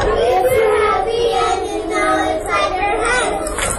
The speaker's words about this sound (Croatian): Djeca iz podgoričkih vrtića pjevala su na engleskom jeziku brojnim gostima ispred EU infocentra.